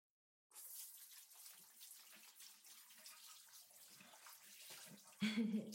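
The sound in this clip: Running water splashes as a face is rinsed, a faint, continuous gushing flow like a tap that starts after a moment of silence and keeps going without a break.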